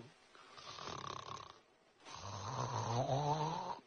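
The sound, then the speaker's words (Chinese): Snoring from a man sound asleep after a full meal: a softer rasping intake followed by a longer, louder buzzing snore with a rough tonal rattle, two breaths in all, alone without talk. “四爷吃了饱睡着着，一会儿功夫鼾声如雷，睡着了，睡着香啊”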